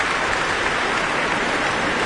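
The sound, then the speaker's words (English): Applause from a concert audience for the soloists and chorus after a choral performance: a dense, steady wash of clapping that holds at an even level throughout, with no voices. “certainly for that audience too, who were applauding soprano Lina Lutens, Roberta Invernizzi as well, Gloria Banditelli the contralto,”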